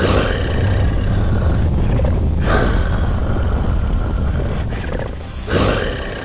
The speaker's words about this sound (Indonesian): ia mendengar suara gemuruh dan raungan keras yang sangat menakutkan. Dan tiba-tiba muncullah ular raksasa itu.